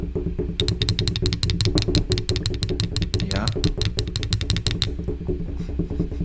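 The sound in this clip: A drum roll as a speaker offers one: a rapid, even run of many sharp hits lasting about four seconds before stopping, over steady low tones and voices.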